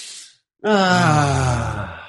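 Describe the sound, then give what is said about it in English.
A deep breath: a short airy inhale, a brief silence, then a long, loud, voiced exhale like a steady sighing groan that holds its tone and fades slightly at the end. “Let's take a deep breath now.”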